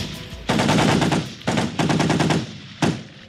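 Automatic gunfire as soldiers of a presidential security regiment shoot at a crowd of protesters marching on a state palace in Madagascar: loud, rapid bursts of rattling shots, then one short final burst.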